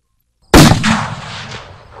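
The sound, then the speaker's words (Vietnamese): A single loud explosion from a magical blast in a fight bursts suddenly after a brief silence, then a long rumbling tail fades out over more than a second. “Một tiếng nổ to lớn”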